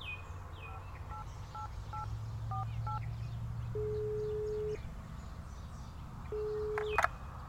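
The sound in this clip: Telephone keypad tones as police dial a victim's family: a short run of crisp dual-pitch beeps, then two long steady ringback tones, all over a constant low hum.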